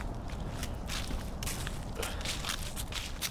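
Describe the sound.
Footsteps of people out on a walk, a steady run of soft crunching steps over a constant hiss of background noise.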